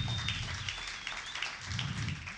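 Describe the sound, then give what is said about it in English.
Church audience applauding the children's ministry team, a soft, continuous patter of many hands clapping at low volume. “Give them a clap.”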